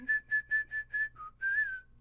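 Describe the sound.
A person whistles during a live film-score concert: five short, even, clear notes in a steady rhythm, then one brief lower note, then a longer held note that rises slightly and falls away.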